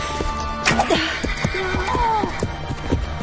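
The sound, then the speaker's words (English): A wounded, riderless horse galloping wildly gives loud, shrill whinnies with wavering pitch over a thudding run of hoofbeats, filling the short clip without a break. “Poor horse. Poor us. A wounded riderless horse galloping wildly ahead, spreading alarm.”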